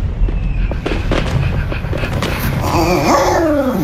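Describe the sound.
Fireworks go off in a few sharp bangs and crackles over a steady rumble, and a dog whimpers in a high, wavering whine near the end.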